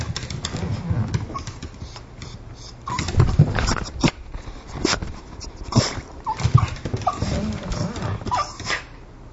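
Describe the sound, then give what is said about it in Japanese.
Whining and whimpering of a dog that wants to go for a walk: irregular short whines and yelps of uneven loudness, rising and falling in intensity over a low background. “あ、散歩に行きたいんだな。今散歩に来た犬の声を録音しています。”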